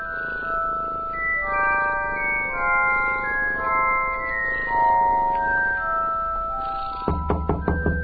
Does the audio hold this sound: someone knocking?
yes